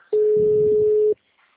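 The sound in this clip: A single ringback tone on a telephone line while a call goes unanswered: one steady, mid-pitched electronic tone lasts about a second, then cuts off into near silence.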